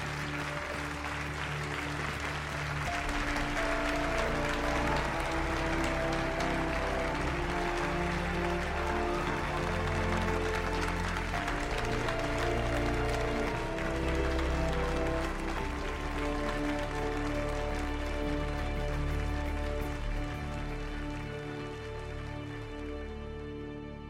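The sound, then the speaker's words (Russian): A theatre audience applauds a daughter's performance in a film scene. Steady, even clapping from many people continues throughout, blended with sustained music beneath it. “Они вместе с другими зрителями аплодируют дочери.”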